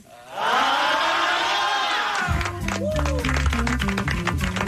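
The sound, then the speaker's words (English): Graduates cheer and shout to welcome a commencement speaker in a loud, dense crowd roar. About halfway through the roar gives way to music with deep, stepping bass notes, while crowd noise continues faintly underneath. “I would like to say thank you, graduates, for that warm welcome.”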